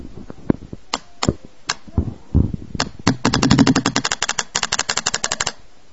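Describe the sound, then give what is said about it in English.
Paintball gun firing, starting with a few spaced, sharp cracks and then breaking into a long run of rapid, evenly repeated shots. “Listen to the sounds of my paintball gun, alright?”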